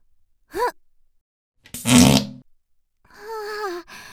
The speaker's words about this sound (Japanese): 今のお尻が熱くなっちゃった。絶対臭いやつだよ今のは。